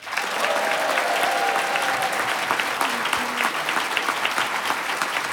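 An audience applauds two young contestants at a public event in Boisseuil. Dense, steady clapping from a large crowd runs evenly from start to finish.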